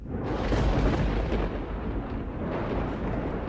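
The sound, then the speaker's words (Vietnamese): A loud thunderclap with lightning nearby, heard as a deep, heavy rumble that rolls on steadily through the whole clip without a clear break. “Một tiếng sấm nổ vang trời, kèm theo tia chớp lập lòe ở đằng xa.”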